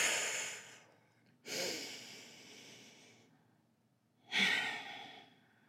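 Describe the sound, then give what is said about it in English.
Deep breaths drawn and released: a few slow, airy breath sounds with a gap between them, with no talking. “We're going to take a deep breath.”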